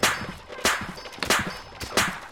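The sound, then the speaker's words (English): Four clanging metallic shots from a plate launcher weapon firing in a video game. They are evenly spaced about two-thirds of a second apart, each a sharp bright burst with a short ringing tail. “I'm going to do it with the plate launcher, just because I want to. Weapon list, long roll, plate launcher. Alright, plate launcher. And I'm going to shoot to the right.”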